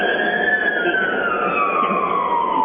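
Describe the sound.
An emergency vehicle siren wails in a loud, continuous tone that slowly glides downward in pitch, with no break and no voices over it.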